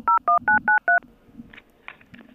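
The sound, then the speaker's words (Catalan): Telephone dialing tones as a call is placed: five crisp keypad tones in a quick, even rhythm, followed by a few faint, softer blips. “apretem i aviam si aquesta trucada sí que funciona i podem parlar amb ell.”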